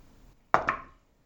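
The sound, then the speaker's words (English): Heavy dice rolling on a table: two quick hard knocks close together, then a short dying rattle, alone and brief. “That dice really is so obvious. Heavy.”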